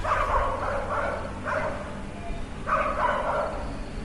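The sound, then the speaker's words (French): A dog barks in the distance as it approaches: a few short, moderately faint barks come in separate bursts over a steady background hiss. “Mais qu'est-ce qui se passe ? Un chien. Tenez, regardez là-bas, il arrive au loin.”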